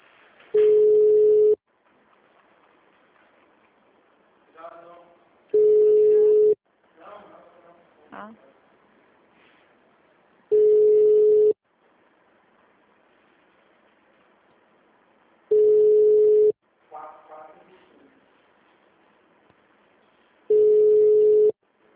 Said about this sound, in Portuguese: Tô ligando ao ar.